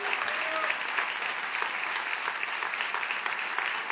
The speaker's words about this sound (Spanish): Vamos a aprovechar el envión de este aplauso inicial para ovacionar a Patricio Barton.